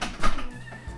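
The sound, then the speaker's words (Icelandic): A cat gives a single short, loud meow that rises and then trails off within about a second. “Ó, kissa.”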